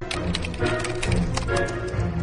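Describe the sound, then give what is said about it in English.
Typing a question on a computer keyboard: a dense, fairly loud run of rapid clicking keystrokes that continues without pause. “The cat is connected to the computer. You just type in the question.”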